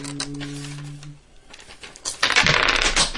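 A handful of dice drop and clatter across a surface in a quick, bright burst of rattling clicks near the end. A steady tone sounds at the start, followed by a brief lull before the dice land.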